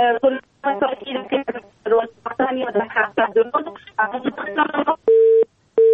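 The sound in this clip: A telephone busy tone after a phone-in caller's call drops: two steady, flat, low beeps at the very end, right after continuous talk.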